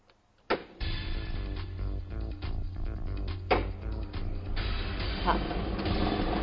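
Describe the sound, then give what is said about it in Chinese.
A motorized 3D lottery drawing machine mixes thirty numbered balls, giving a steady mechanical whirring drone with occasional rattling bursts while a presenter talks over it. “好，我们现场 3D 游戏的摇奖机也是正式启动了，来等待一下即将产生的第一个 3D 游戏开奖号码，看一下会是几号球”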